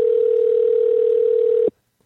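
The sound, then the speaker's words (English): Telephone ringing tone on an international long-distance call to Canada: a single steady, even tone holding for under two seconds and then cutting off into silence. “Press call. It's ringing. Oh my God, it's ringing. Connecting. Oh, ringing.”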